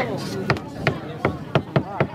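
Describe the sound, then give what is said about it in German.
Relatives hammer nails to close a reopened coffin. Six sharp, knocking strikes land at a fairly steady pace over a continuous noisy background. “Also nageln die Angehörigen die Särge schnell wieder zu.”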